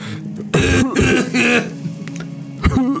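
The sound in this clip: A person coughs and clears their throat during a tabletop role-playing game, after a failed fortitude save. A few harsh, loud bursts come in a rough sequence, with short gaps between them, and a final shorter rasp near the end.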